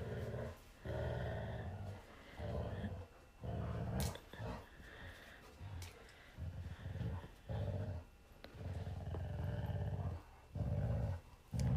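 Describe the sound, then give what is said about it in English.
A black Labrador growls while playing tug with a toy: many short, rough, rumbling growl bursts come in an uneven rhythm, separated by brief pauses, and stay fairly soft throughout. “Addie the Black Lab. She's the one in charge of the tug toy operation.”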